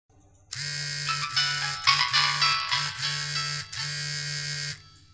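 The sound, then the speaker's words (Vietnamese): A mobile phone ringtone plays during a recording session: a loud, buzzy electronic melody of repeated tones that sounds steadily for over four seconds and then cuts off. “vào vòng thu sao lại không tắt chuông điện thoại thế?”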